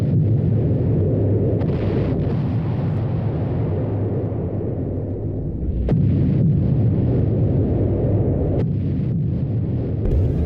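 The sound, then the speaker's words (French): Gunfire and explosions nearby, behind an old petrol station: a heavy, continuous rumbling roar with a few sharp cracks breaking through. “Ça s'arrête. Oui, c'est fini. Vous savez qui est en train de tirer?”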